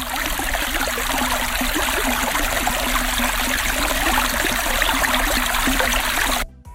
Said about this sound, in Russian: Речка, вот, да это точно речка.